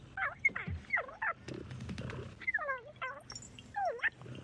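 A small caged creature sings in short bursts of warbling, chirpy calls that slide up and down in pitch, broken by a few clicks and soft noises. It is fairly quiet and heard alone.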